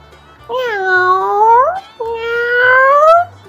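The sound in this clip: A cat meowing in a spoken fairy-tale reading: two long, drawn-out meows, each bending upward in pitch toward its end, separated by a brief pause.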